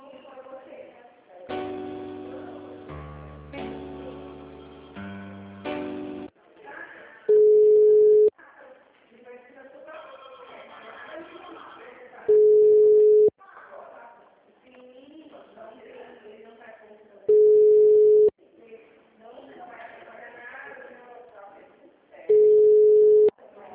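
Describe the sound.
Telephone ringback tone plays while a call is transferred to an office extension: four long, loud beeps at even intervals, with other sound filling the gaps between them.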